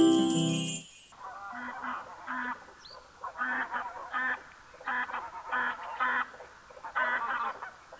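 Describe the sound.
Bird calls: loud, nasal, goose-like honks come in repeated short bursts, many in all, after a brief passage of music at the start.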